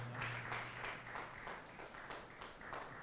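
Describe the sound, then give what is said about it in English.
A church audience claps their hands in a steady, evenly paced rhythm, the sustained clapping fairly faint and unbroken throughout. “Sustain the hand clapping, sustain the clapping.”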